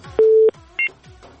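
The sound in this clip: Telephone dialing tones for a call: a longer, lower beep followed by a short, higher beep, both clean and fairly loud with no talk.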